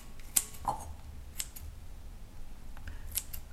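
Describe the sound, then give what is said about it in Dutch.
Kitchen scissors snip raw onion finely, giving a few crisp, sharp metallic cuts spaced unevenly apart. The snips are fairly quiet, with no talking. “Ik knip nog een klein beetje fijn.”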